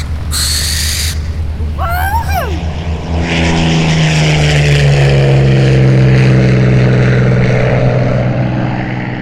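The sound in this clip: A propeller aircraft taking off: a loud, steady droning engine roar with strong low tones builds after a few brief high chirps and holds to the end.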